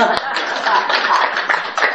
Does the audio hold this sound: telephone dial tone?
no